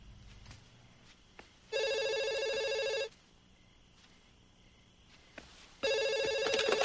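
Telephone ringing in two long electronic bursts separated by a quiet pause, each a bright, buzzing multi-tone trill over faint background, the second ring running to the end.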